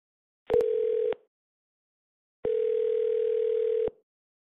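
Flat, steady telephone dial tone on a law firm's phone line after a caller is disconnected, sounding in two unbroken bursts, the first short and the second longer, with a click at the start and silence between them.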